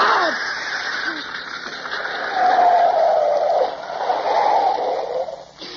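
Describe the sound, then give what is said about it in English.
A car driving along before its left front tire goes flat: a steady engine and road drone that swells midway and drops away at the very end. “Yeah, that's a flat, all right. Left front wheel.”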